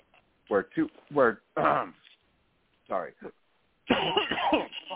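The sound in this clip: Throat-clearing coughs from someone with something caught in the throat: a few short, rough bursts in quick succession, then a pause before speech resumes.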